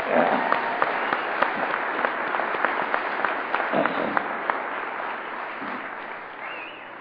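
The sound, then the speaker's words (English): Audience applause for a volunteer committee at an Al-Anon gathering, a crowd clapping steadily and densely for several seconds before easing off slightly at the end. “Let's hear it for the committee of volunteers.”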